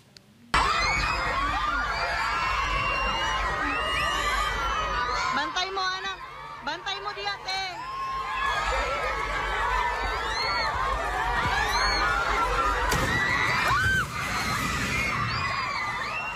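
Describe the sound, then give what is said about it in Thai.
Primary school students scream in fear during a strong earthquake in Digos, Mindanao, Philippines: many overlapping high-pitched shrieks and shouts, loud and continuous, rising and easing in waves. “นักเรียนในโรงเรียนประถมศึกษาแห่งหนึ่งที่เมืองดิโกลบนเกาะมินดาเนาทางตอนใต้ของฟิลิปปินส์ส่งเสียงกรีดร้องด้วยความหวาดกลัวขณะเกิดเหตุแผ่นดินไหวรุนแรงค่ะ”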